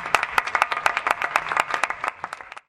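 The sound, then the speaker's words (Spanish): Audience applause at a 15th-anniversary celebration party: many sharp, irregular claps form a steady patter that thins out and fades toward the end. “Yayo Herrero, así que bueno, la recibimos con un fuerte aplauso”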